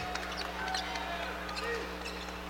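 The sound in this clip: Basketball dribbled on the court during a game: a few faint, dull bounces over a steady background of arena murmur and low hum.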